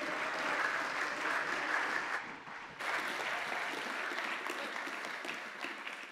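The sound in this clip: Audience applause welcoming a speaker at a church gathering: dense, steady clapping that dips briefly near the middle, then swells back and carries on loudly to the end.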